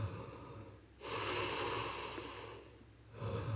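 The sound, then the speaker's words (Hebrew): Deep belly breathing during a guided breathing exercise: a long, airy breath swells and fades over about a second and a half, then a second breath begins at the end, with quiet pauses between and no talking. “אז נשימות לבטן. שאיפה, נשיפה. שאיפה, נשיפה. נשיפה.”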